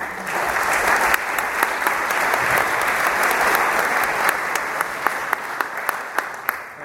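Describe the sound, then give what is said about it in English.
Audience applause welcoming a seminar speaker: a dense, loud wash of many hands clapping continues steadily throughout, with a few sharper individual claps standing out. “Please give Paul a very warm welcome.”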